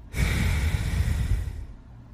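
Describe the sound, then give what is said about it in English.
One slow, steady breath from a breathing exercise. It is a long, airy rush of air lasting about a second and a half, loud and alone with no talk, and it fades out at the end. “Start with a four count inhale, like this, and then exhale for four counts.”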